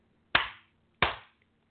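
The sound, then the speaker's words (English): Two sharp hand claps, well apart and alone, given as a cue to end a guided grounding exercise; each is a loud, crisp smack that dies away quickly. “clap your hands to get yourself back in the frame of mind.”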